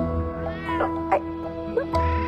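A white-pawed cat at a table meows a few times, rising and falling, as it pushes away a plate of salmon cake, over a steady tonal background.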